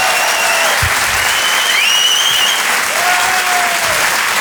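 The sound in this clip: Enthusiastic audience applause at a live comedy club show at a Paris theatre, loud and continuous dense clapping for the full stretch, with a voice speaking briefly over it.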